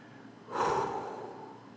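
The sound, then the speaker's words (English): A single deep breath drawn in through the nose swells quickly into a loud, airy rush, then trails off slowly in a softer exhale-like hiss, with no talk. “Let me take a breath.”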